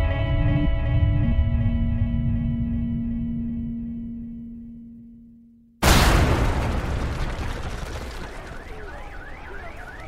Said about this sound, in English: A bomb had just rattled the complex, and everyone was trying to figure out what happened.